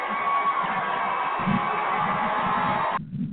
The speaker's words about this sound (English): Where's my round of applause